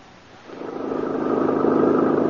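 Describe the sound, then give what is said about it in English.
Car engine on a drive out into the countryside: a steady mid-pitched motor drone that swells in loudness after a quiet first half-second, then holds an even, rough hum with no talk. “Oh, McGee, I'm so glad that we decided to drive out in the country to look at the fall foliage.”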